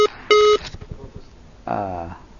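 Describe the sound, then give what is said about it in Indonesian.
A brief steady tone on a telephone line after a dropped call sounds in one short burst near the start, followed by scattered low noises and then a voice. “Terputus hubungan telepon di kesempatan malam hari ini.”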